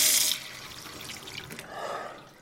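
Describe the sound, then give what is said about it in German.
Water splashed onto a face at a sink: a short hissing rush of water, then softer, fainter splashing and trickling that fades away. “Ich flüchtete auf die Toilette, klatschte mir Wasser ins Gesicht und trocknete die Augen.”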